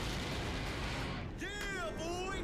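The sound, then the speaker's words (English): A light laser attack striking a building during a giant robot Megazord battle: a loud, rumbling explosive blast, then a series of sharp, descending laser zaps. “We got something for you. Light laser attack. The what? Oh, snap. I forgot about this. We haven't seen this in a while.”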